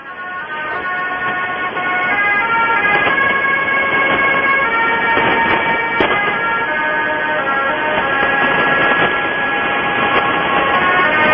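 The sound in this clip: Interval signal of a US shortwave radio station from Spotsylvania, Virginia: sustained electronic tones that change in steps, heard alone over a constant bed of hiss at a fairly loud, even level.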